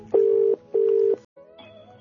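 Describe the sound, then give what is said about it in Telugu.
Telephone tones as a call is placed: two short, steady beeps with a brief pause between them, followed by softer tonal line noise. “ఇప్పుడు మనం విజయవాడలో ఉంటున్న షణుంకాకి phone చేసి తనేం చెప్తాడో కూడా చూద్దాం.”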